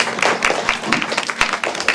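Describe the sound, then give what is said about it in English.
Round of applause made of crisp, evenly spaced claps at a steady rhythm, a string of about nine sharp hits with little else around them. “Okay, let's give a round of applause.”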